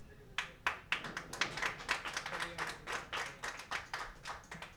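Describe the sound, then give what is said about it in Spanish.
Audience applause for musicians after a concert, heard as many distinct hand claps in a quick, fairly even patter that keeps a steady pace and stays moderately loud throughout. “Un aplauso bien fuerte para estos músicos que se retaron haciendo este concierto muy importante.”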